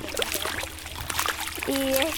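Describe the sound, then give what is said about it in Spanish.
Lagoon water trickles and splashes in a steady, moderately loud stream, with voices heard at times. “estamos aquí en la laguna sintiendo los sonidos del agua.”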